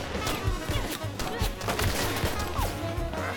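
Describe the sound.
Gunfire in a dubbed animated cartoon: many sharp, cracking bursts in quick succession over a steady low rumble, loud and densely packed across the whole moment.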